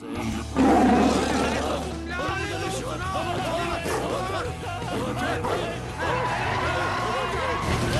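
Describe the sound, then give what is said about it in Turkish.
A tiger roars in the back seat of a car, harsh and drawn out over a heavy low rumble in the first two seconds, while excited voices and commotion continue throughout. “Kaplan ayıldı yani, arka koltukta.”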